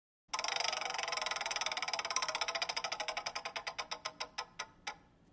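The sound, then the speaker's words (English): A prize wheel spun in a quiz game gives a fast run of sharp ticks that gradually slow and spread apart, each click standing out more, until the wheel comes to rest. No voices. “we'll spin the wheel. We'll get you a category”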